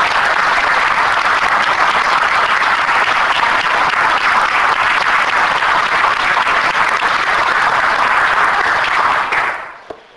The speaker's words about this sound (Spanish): así que es el momento de brindar un aplauso a Martiniano